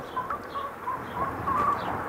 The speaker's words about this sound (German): Und die beiden haben sich auf Hühner geeinigt. Jedes der Hühner ist von einer anderen Rasse.